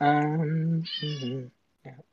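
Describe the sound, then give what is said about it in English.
A cat meows loudly: one long drawn-out meow that shifts higher partway through, then a short pause and a brief, quieter mew. “Oh, hello, Kitty. You've been coming in and just saying hello every once in a while.”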